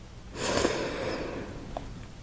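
A deep breath drawn in during a guided breathing exercise, a soft airy rush that swells over about a second and then slowly tapers off, with no talking.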